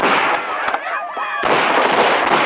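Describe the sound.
Gunfire in a dramatized shootout, heard as dense, loud bursts of crackling shots that thin out briefly into whistling tones before the heavy firing resumes.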